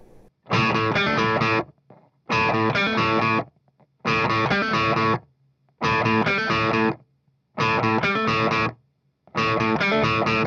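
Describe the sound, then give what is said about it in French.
A choppy main electric guitar riff, heavily distorted, is played in six short chopped bursts separated by brief silences, each burst dense and loud. “Mais donc le riff de guitare principal, là c'est un riff encore une fois assez haché, un peu... Enfin, ça fait comme ça.”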